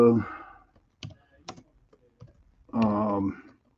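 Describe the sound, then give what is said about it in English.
Typing on a computer keyboard: a few sparse, light clicks and taps spaced between two stretches of a talking voice. “I'm telling you what, I'm going to type it right in here.”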